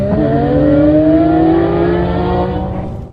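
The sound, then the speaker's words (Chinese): Race cars accelerate away from the start of a one-day race held in a 300-metre-deep mine pit. Engines give a loud, sustained roar whose pitch climbs steadily, then the sound eases slightly at the very end. “一辆辆赛车飞驰而出”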